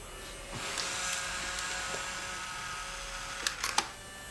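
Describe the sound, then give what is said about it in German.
A camera taking a farewell photo gives a few sharp, quick clicks near the end, set against a steady low background hum. “Achtung, Foto.”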